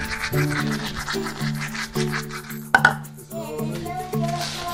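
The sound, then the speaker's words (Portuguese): Scratchy scrubbing of a toothbrush as a seven-year-old girl brushes her teeth with bubblegum-flavoured toothpaste, steady rhythmic strokes with occasional light clinks. “escovar os dentes com pasta sabor pastilha elástica”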